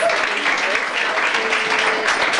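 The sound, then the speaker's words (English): Comedy club audience applause, a dense burst of clapping that stays loud and even throughout, with faint voices mixed in. “Clap your hands for Duval Culpepper! So this is in New York Comedy Club.”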